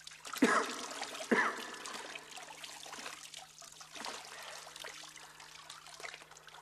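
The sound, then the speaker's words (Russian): Wet, sandy sludge drips and splatters off a soaked man as he gets to his feet. Two sharper splashy bursts come early on, followed by quieter, faint wet trickling. “Встает на ноги, совершенно мокрый, идет к колодцу.”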